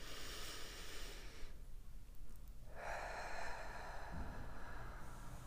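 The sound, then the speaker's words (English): A slow, deep breath is drawn in through the nose and let out through the mouth, a soft, airy rush with a gentle pause between inhale and exhale, heard alone without talk. “take a deep breath. In through your nose and out through your mouth.”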